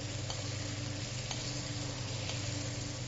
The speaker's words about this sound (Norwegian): Når han har stekt like lenge på begge sider, den er fortsatt rå, men det man gjør da, det er å tilsette litt smør.